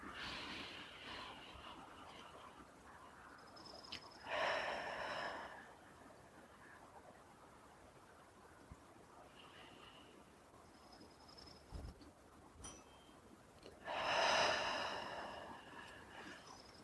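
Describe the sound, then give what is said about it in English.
Two slow, deep breaths taken at a relaxed pace during a calming exercise, in through the nose and out through the mouth, each heard as a soft, airy rush, spaced well apart over near silence. “If you want to join me t- for taking two deep cleansing breaths in through the nose and out through the mouth at your own pace”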